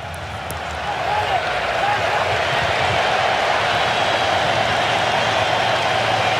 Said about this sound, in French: Et écoutez ces clameurs. Le public américain est prêt pour sa Coupe du Monde.